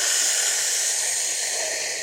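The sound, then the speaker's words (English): A deep breath drawn in during a guided breathing exercise: a steady, airy hiss of inhaled air that holds level and then fades slightly toward the end. “Inhale deeply and hold.”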